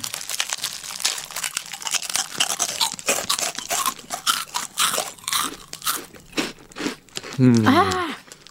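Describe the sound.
Crisp crunching and chewing of a small, hexagonal, individually wrapped snack, with many sharp bites and crackles repeating throughout and a voice briefly heard near the end.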